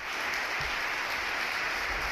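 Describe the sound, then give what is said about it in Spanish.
Sustained ovation from prosecutors and staff for Spain's attorney general, Álvaro García Ortiz, as he leaves the prosecutor's office for the Supreme Court. Dense, steady clapping merges into a continuous rain-like roar with no single claps standing out. “Y uno de los sonidos que nos deja esta jornada insólita con un juicio insólito como es el del fiscal general”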